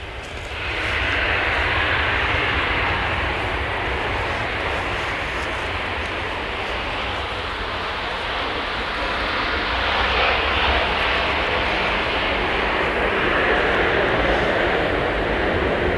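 Engine of a restored liaison and transport aircraft, a loud steady droning roar that holds almost unchanged for the whole stretch.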